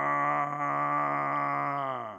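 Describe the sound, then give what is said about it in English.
Strange groaning sound said to come from the earth: a loud, steady, buzzy drone rich in harmonics that holds a low pitch, then sags downward at the end. “There's this groaning and this moving in the earth.”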